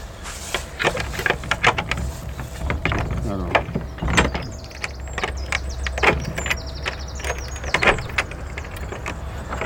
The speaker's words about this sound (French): Une vraie serrure gasconne, il faut ouvrir à l'envers.